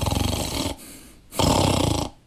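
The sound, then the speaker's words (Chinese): A storyteller's voice imitates an old man's loud snoring: two long, rasping snores separated by a softer, quieter breath. “这时候老程打上呼噜了。”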